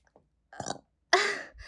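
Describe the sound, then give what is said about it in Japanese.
A burp after drinking a lot of liquid from a 2-liter plastic bottle: a short, rough guttural sound, then a louder and longer croaking belch in the quiet. “ゲップ出る。”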